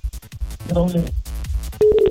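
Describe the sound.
A telephone line tone sounds after a caller's line drops during a radio phone-in show; talk comes first, then a short, steady electronic tone cuts in at the very end.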